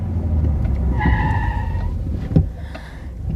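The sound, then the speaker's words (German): A car pulls up and parks on the left side of the road: a steady, low engine rumble with some brief tonal whine, then a short thump near the end as the sound eases off. “Hier sind wir. Wir stellten den Wagen auf der linken Seite ab.”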